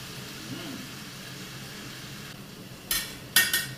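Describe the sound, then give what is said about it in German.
Diced onions sizzle with bacon in a pan: a faint, steady frying hiss runs throughout, then a few sharper crackling bursts come near the end. “Und gebe nun die fein gewürfelten Zwiebelstückchen zum Speck.”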